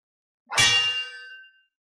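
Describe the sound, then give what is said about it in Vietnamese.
A saber blade rings out with a single sharp metallic clang. The bright tone decays over about a second into silence, with nothing else heard. “Một tiếng đao ngâm vang vọng khắp thiên địa”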